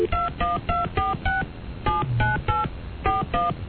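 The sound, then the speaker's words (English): Touch-tone telephone dialing of a New York number in area code 212: ten clear beeping tones of varying pitch, in quick bursts of five, three and two, with no talk. “I'm just dialing in area code 212.”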